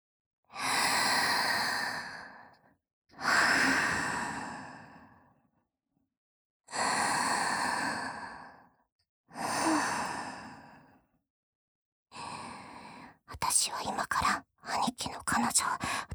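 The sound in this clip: Slow, deep breaths drawn softly and close. About four long airy inhales and exhales are separated by pauses, followed by shorter, choppier breathy sounds near the end.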